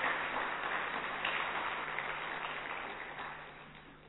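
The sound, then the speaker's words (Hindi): Audience applause greets an honoured female speaker at a gathering, a sustained wash of clapping that starts strong and gradually tapers off toward the end. “हम दीदी जी का भी जोरदार करतल ध्वनि से स्वागत करते हैं।”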